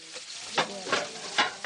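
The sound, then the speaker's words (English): Fava bean rice boiling in a pot, a steady bubbling sizzle broken by a few louder, rougher surges, with no voices. “This rice, the fava bean rice, is boiling now. You can listen to it.”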